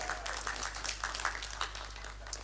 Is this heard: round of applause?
yes